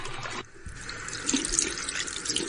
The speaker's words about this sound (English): Let's wait to see if he washes his hands. Let's see if he washes his hands, all right?